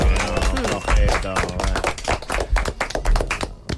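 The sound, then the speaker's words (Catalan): Applause from a small group, with quick, irregular hand claps mixed with voices talking and calling out over them. “¿No podem donar-nos un aplaudiment?”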